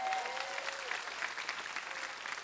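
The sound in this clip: Faint applause from an audience during a church service, a soft continuous patter of clapping that holds at an even low level throughout.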